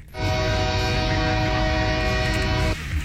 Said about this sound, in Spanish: El tren hacia Calexico.